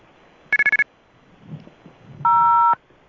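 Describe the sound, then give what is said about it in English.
Touch-tone telephone dialing: five quick, evenly spaced keypad beeps, a pause with faint low rustling, then one longer, steady, higher tone. “I'm dialing right now. I'm dialing.”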